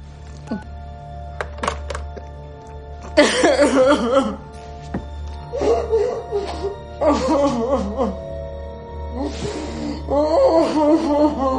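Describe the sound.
A woman cries in a phone booth, letting out several bursts of choked, breathy sobs with pauses between them. A steady low hum runs underneath.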